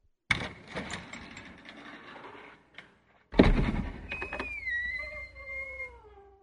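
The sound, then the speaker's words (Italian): An old country house door opens: a sharp clunk and rattle, then a brief pause and a second louder thud, followed by a drawn-out, tonal creaking squeal that fades. “Aspetta, ti apro la porta.”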